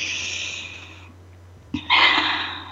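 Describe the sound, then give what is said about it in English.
A shared breath taken together during a guided pause among women connecting: a long, airy hiss, a short gap, then a second, louder breathy rush of air. “Let's take a breath together again.”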